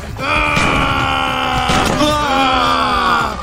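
A car engine strains with a loud, harsh whining drone that stays steady for several seconds while its pitch wavers.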